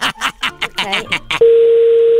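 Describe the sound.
Telephone line tone while placing a call, a steady mid-pitched hum that starts abruptly after a stretch of speech and continues loud and unbroken to the end.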